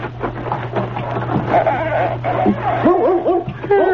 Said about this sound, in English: Hey, that's a dog back here in the woodshed.